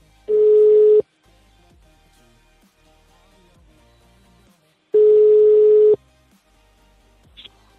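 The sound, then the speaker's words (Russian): Telephone ringback tone on an outgoing call: two steady, mid-pitched beeps, each about a second long, separated by a long quiet gap, with no voices. “Сейчас мы его наберем. Набираю.”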